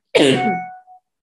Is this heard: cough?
yes